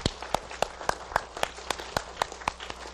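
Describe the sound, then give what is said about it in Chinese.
Applause at a church service welcoming returning prodigals: many crisp claps in a steady, even rhythm, roughly four per second, each distinct and of similar loudness. “我们用热烈的掌声祝贺这些回家的浪子们”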